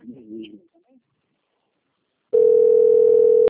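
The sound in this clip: A telephone busy signal sounds as a single steady mid-pitched electronic tone lasting about a second, after a brief spoken word and a silent pause.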